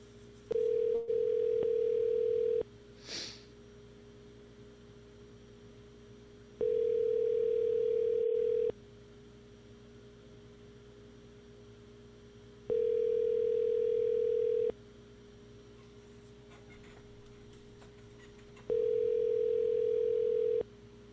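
Telephone line tone while calling a number: four long, even ring tones, each about two seconds, separated by longer quiet gaps over a faint steady hum.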